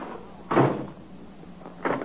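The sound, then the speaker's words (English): A door is shut after its little lock button is pushed in, giving two soft, dull thuds, one early and one near the end, with quiet between them. “Just let me check this lock now, and then I'll set up the card table. I just push this little button in to lock it. Like that. See? Now I'll go outside and try”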